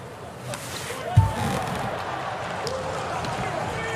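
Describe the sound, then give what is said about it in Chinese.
A single dull thud of a volleyball serve during a match between Poland and Ukraine, struck early and standing out over a steady wash of crowd noise. “博瓦兹的发球，”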